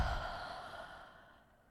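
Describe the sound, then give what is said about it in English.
A long breath out through the mouth after a double inhale through the nose and a held breath, in a stress-relief breathing exercise. It is a steady, airy rush that gradually fades, with no talking. “Inhale through the nose twice. Hold it. And exhale.”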